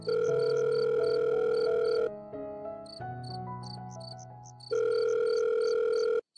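An electronic phone ringtone as a call is placed at night, two long, loud buzzing tones with high chirping pips on top, separated by a softer run of melodic notes, then cutting off abruptly.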